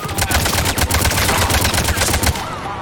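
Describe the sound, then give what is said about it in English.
Gunfire during an attack in a video game: many rapid, sharp bursts in a fast, uneven rhythm, loud and sustained for about two and a half seconds before cutting off. “Shepard, they found us. Under heavy attack. Taking fire.”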